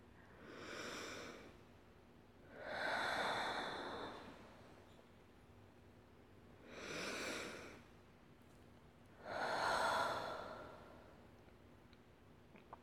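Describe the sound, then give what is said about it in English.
A person takes four slow, deep breaths, each a soft airy rush separated by quiet pauses. The breathing is faint throughout. “Hey, breathe. Deep breath, sweetie.”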